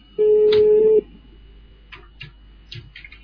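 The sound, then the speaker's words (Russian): A telephone line tone on a call placed to Moscow: one steady, loud, mid-pitched beep lasting just under a second, followed by faint, scattered clicks and noises. “Я вообще-то в Москву звоню.”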